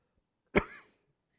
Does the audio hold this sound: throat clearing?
yes